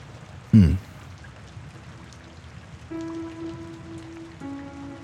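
Steady rain pattering on a surface, an even hiss that runs throughout, with a soft low thump near the start and faint sustained tones entering in the second half.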